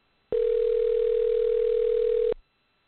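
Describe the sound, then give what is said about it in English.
A telephone ringback tone on a call sounds as a single steady, even-pitched tone lasting about two seconds, then stops, with no voices. “It's ringing.”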